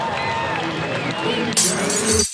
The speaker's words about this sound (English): Oh, what the heck? Cracked windshield?